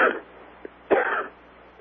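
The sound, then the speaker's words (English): A person coughs a couple of times: short, rough, faint bursts over a quiet line hum, with a small click between them. “I recognize that cough.”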